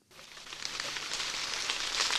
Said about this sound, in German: Leichter Nieselregen prasselt auf den Maisacker von Thorsten Sturm aus dem fränkischen Obernzenn.